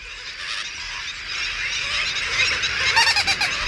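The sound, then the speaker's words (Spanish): Hundreds of waterbirds of several species, including terns, call together in a wetland park lagoon: a dense, continuous chorus of overlapping high calls that grows slightly louder toward the end, where sharper calls stand out. “aquí hay 7-8 especies multiplicadas por 1000, porque hay cientos de aves, pero ese es el sonido de la fuerza de la naturaleza”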